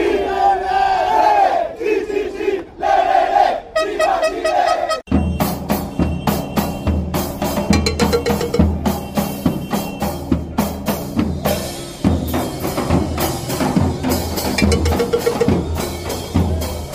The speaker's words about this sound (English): Sound of some Chile supporters